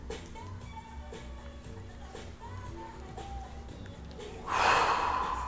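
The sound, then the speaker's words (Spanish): Deep breathing, in through the nose and out through the mouth, heard mainly as one loud, breathy rush of air near the end over a faint, steady background. “Inhala bien profundo. Inhala por tu nariz, exhala por tu boca.”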